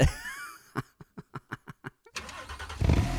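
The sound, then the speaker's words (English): A BMW Z4 engine in an advertisement cranks in a quick, even series of short pulses, then catches and swells into a full, loud roar near the end. “It's powerful, yet precise, exact, yet effortless. The new BMW Z4.”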